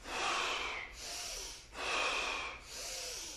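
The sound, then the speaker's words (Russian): Deep breathing during a kriya yoga breathing exercise: two full cycles of loud, airy inhales and exhales with a hissing, rushing texture, in a slow, even rhythm and without talk. “Дышим, дышим. Начни вдох.”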